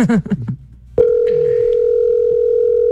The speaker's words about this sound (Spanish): Empiezo a marcar, ahí va a sonar.